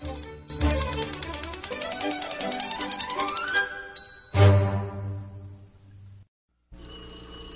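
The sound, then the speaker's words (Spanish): A telephone rings in a novelty song with a rapid, bright, rattling bell trill that breaks off into a decaying tone. After a brief silence the ringing starts again at the end. “conteste ese teléfono”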